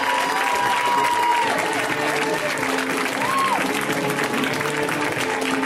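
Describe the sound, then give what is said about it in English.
An audience applauds and cheers for a comedian: a dense, steady wash of clapping and crowd noise holding at an even, loud level throughout. “Let's hear it right now for Sasheer Zamata, guys. Give it up for Sasheer.”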